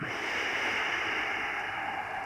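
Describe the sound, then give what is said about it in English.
A long, deep exhale during yoga breathing: a steady, breathy hiss of air that holds at an even level for the whole stretch, with no talking. “You take a deep breath, pressing the palms as far away from your body as you can. Breathe all the way out.”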